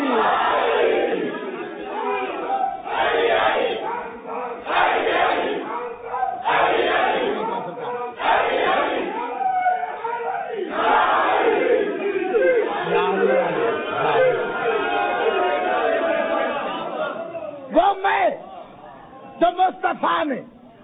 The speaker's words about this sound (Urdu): اتنا بڑا نعرہ لگائے کہ اگر جبریل آسمان پہ ہے تو زمین پہ آنے پہ مجبور ہو جائے. نعرہ حیدری